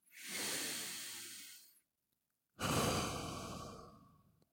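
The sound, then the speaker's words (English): Two deep breaths, an inhale followed by an exhale, each a long, breathy rush under two seconds, separated by a short silence and heard alone. “And just take a deep breath in and a deep breath out.”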